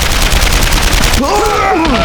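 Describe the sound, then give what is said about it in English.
Rapid automatic gunfire from an assault rifle and a machine gun during a wartime battle. Loud, dense bursts crackle without a break, and a raised voice cuts in over the firing near the end. “assault rifle thundered beside him”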